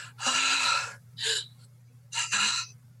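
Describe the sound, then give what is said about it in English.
A human voice imitates the gasping of a training mannequin: a few sharp, breathy gasps, the first long and the later ones shorter, with quiet pauses between them and a faint low hum underneath. “the only noise you can hear, apart from your own sort of quick breathing and the sound of your heartbeat in your ears, is the gasping from the mannequin”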